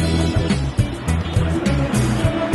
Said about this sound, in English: Okay, so first experience of the Vélib, riding the wrong way down a one-way street, but it's very quiet and it's actually quite a joy to ride.